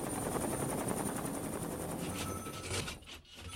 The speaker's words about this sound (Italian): Si alzano in volo i primi elicotteri dell'aeronautica che trasportano acqua e generi di prima necessità.